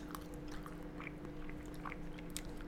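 Someone bites and chews a pea from a steaming-hot Findus frozen meal that has lingonberry jam in it, making faint soft clicks and wet mouth sounds that repeat irregularly.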